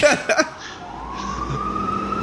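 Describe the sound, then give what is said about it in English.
Police car siren wailing, a steady tone that climbs slightly in pitch and then holds, after a few brief noisy bursts at the start. “I know the sound of their sirens. Teeny weeny, teeny weeny, teeny weeny. Teeny weeny. Woo, woo. That's the sound of the police.”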